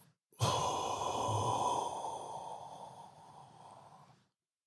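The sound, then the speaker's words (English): A single long, audible breath, sigh-like and breathy, rising sharply at the start and fading gradually over about four seconds, with no talking. “let's kind of just inhale and exhale.”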